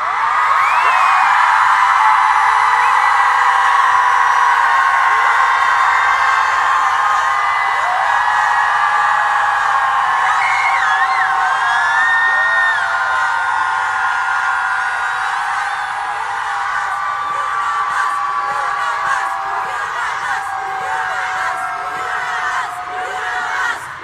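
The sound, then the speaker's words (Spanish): A crowd of women shouts loudly at a protest over missing women, a continuous, dense roar of yelling and whoops that holds steady throughout. “Vamos a gritar fuerte para que nos escuche el presidente y nos escuchen en todo el mundo. Por todas nuestras compañeras, vamos a gritar fuerte.”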